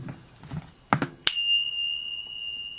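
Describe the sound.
A bell is struck once, giving a bright ringing tone that holds and slowly fades. A couple of short knocks come just before it, over a faint background.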